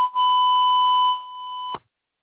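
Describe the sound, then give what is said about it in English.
A censor bleep: a single continuous, high-pitched electronic tone held steady for under two seconds, heard alone, ending in an abrupt cutoff followed by silence. “It's going to be one continuous beep.”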